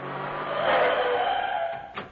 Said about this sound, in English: While you were saying that, I drove you to Brighton.